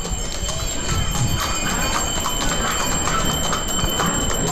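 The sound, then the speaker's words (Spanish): Bells jingle and hooves clop from two mules pulling the Sin Pecado cart, a steady, continuous mix of bright jingling and clopping over dense noise. “no sé si lo escucháis, a los cascabeles de los mulos. Son dos mulos los que llevan la carreta del sin pecado. Y me voy a acercar, los voy a esperar para que se escuche ese sonido.”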